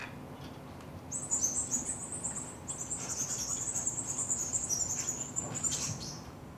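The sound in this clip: Migrating birds of many species give rapid, thin, high-pitched flight calls at natural speed. A dense run of chirps begins after about a second and continues over a faint background hiss.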